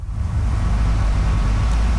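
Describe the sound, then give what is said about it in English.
A wrecked 1985 burgundy Firebird is towed onto a high school's front lawn, with a steady, loud, low vehicle engine rumble throughout. “At a Windsor high school, the wreck of a 1985 Burgundy Firebird is towed onto the front lawn.”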